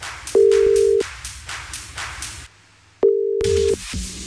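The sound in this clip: Ringback tone from an outgoing phone call placed by a radio station to a contest winner: two steady, mid-pitched tone bursts about two and a half seconds apart, set against a dense, busy background.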